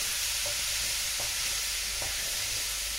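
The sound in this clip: A vegetable mixture sizzles as it is stirred and fried in a pan. The frying hiss is loud and constant, and a few short scraping strokes of the stirring break through it.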